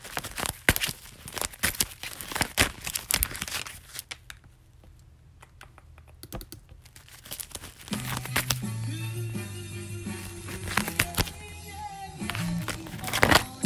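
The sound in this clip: Tarot cards being shuffled by hand, a busy run of crisp clicking, slapping and rustling that thins out for a few seconds and then picks up again, with soft instrumental music entering underneath in the second half.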